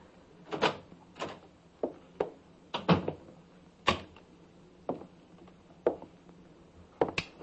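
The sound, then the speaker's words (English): A key turning in a door lock: many sharp metallic clicks and short rattles spaced irregularly, some in quick pairs, standing out alone against a quiet background. “And then I heard the key in the lock.”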